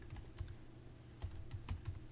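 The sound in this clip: Typing on a computer keyboard, many faint, irregular key clicks tapping along on their own with no voices.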